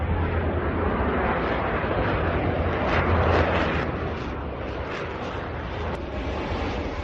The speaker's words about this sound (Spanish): El sonido muy cercano de ese avión que tanta y tanta gente escuchó y vio y asustó, por supuesto, a muchos madrileños